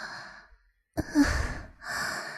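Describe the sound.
Heavy, quickening breathing: a few audible breaths, each a breathy inhale and sighing exhale, fairly faint and without words.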